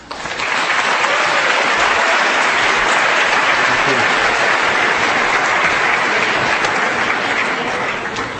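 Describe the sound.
Long, loud applause from a large university audience welcoming Ralph Nader to speak, a thick, unbroken roar of clapping that builds quickly and holds steady before easing slightly at the end.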